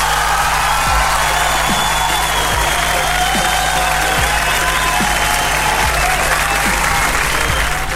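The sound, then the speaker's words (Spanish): An applause sound effect: dense, loud, continuous clapping from many hands, holding steady without a break for eight seconds. “Déjenme poner los aplausos correspondientes porque de verdad, muchos fundamentos y de verdad con buen sentimental se merece un aplauso.”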